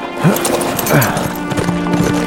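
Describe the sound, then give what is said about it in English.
A single rider's horse clip-clops away, its hooves striking in an even, steady rhythm of moderate loudness throughout. “He rode out of Valverde, a lone rider headed north.”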